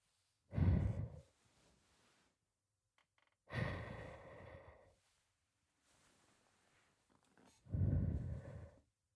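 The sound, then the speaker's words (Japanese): Soft, airy blowing into the ear in an ASMR style, heard as three separate slow breathy puffs with short pauses between them and no talk. “まだ耳ふうをしているだけなんだから。”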